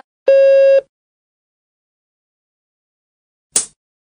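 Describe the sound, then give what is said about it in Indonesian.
A single long Morse code dah tone, a steady buzzy pitch with strong harmonics lasting about half a second, followed after a long silence by one brief noisy click. “Nada da diperdengarkan lebih panjang dari nada dit.”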